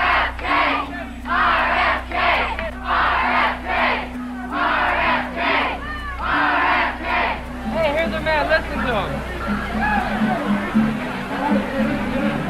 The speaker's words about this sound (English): You can hear the supporters packing the room, despite the hour and the sweltering heat.